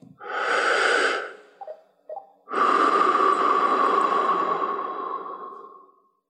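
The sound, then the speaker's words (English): Slow, deep breathing during a seated yoga exercise for older people: one long, airy breath, a couple of small catches of air, then a second, longer breath that slowly tapers off. “slowly inhale and exhale like this”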